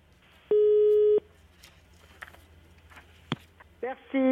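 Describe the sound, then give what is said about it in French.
Telephone busy tone after a call between Mexico City and Paris cut off: one steady, loud tone, then a sharp click and a few shorter tones near the end. “Nous allons rappeler Guadalupe tout de suite parce que la communication a été interrompue entre Mexico et Paris.”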